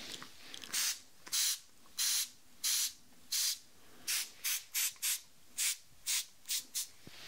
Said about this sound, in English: So I'm going to spray again on this ear first in 1, 2, 3.